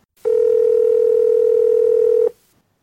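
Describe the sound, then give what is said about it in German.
A telephone signals an incoming call with one steady, mid-pitched electronic tone. It is loud and plays alone, held unbroken for about two seconds before cutting off cleanly. “Wir haben einen Anruf bekommen”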